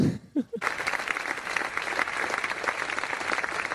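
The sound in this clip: An audience applauds as a band is introduced at a live event. A brief voice is heard at the start, then a broad, steady round of clapping carries on at an even level.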